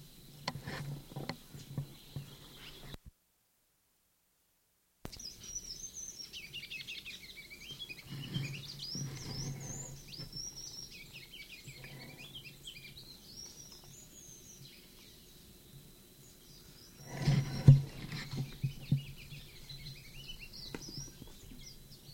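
Bird calls from a sycamore bird: a run of high, warbling chirps that rise and fall in quick modulated phrases, fairly faint over soft background patter, with a brief louder disturbance near the end.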